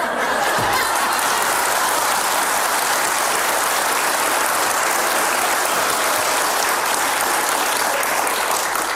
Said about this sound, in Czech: Potlesk.